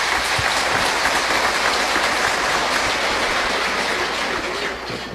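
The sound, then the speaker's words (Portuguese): An audience applauds for a young girl with continuous, dense clapping that holds at a strong level for about five seconds, then eases slightly at the very end. “Uma salva de palmas para Maria Sofia.”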